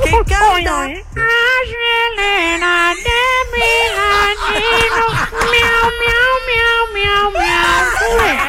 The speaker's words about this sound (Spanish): tú me estás preguntando, miau, miau, y yo te estoy contestando, miau.